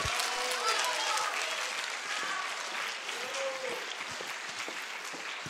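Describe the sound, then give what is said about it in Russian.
Stormy applause from the audience at a gala concert and awards ceremony: a long, dense, even roar of clapping, fairly faint overall, with voices faintly mixed into it. “Бурные аплодисменты.”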